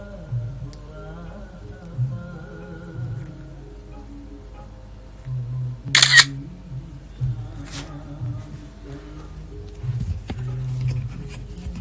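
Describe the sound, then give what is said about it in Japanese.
A camera shutter fires during a coffee roasting session: a sharp snap near the middle, then a second fainter click, over a low, steady hum. “じゃあちょっと今写真撮りますね。で、twitter の方に、えー、写真上げていきたいと思います。”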